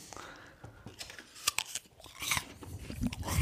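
Crisp biting and chewing of a slice of Gala apple: irregular crunchy bites and wet chewing. The crunches grow denser and louder toward the end, with no talk over them.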